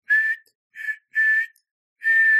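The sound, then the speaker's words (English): Tiny, airy, silvery whistles in four short high notes at a steady pitch, spaced unevenly with silences between them, heard alone. “tiny little whistles, little airy little silver whistles. Doot, doot, doot, doot, doot, doot.”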